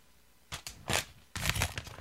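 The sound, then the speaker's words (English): An envelope being handled and opened gives crisp paper crinkling and tearing noises. A few short bursts are followed by a longer crackling stretch, with no talk. “hand me the envelope”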